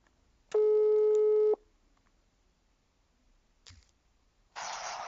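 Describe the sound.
A telephone call tone on an outgoing call: one steady, buzzy beep lasting about a second, then quiet with a brief click, ending in a burst of hiss.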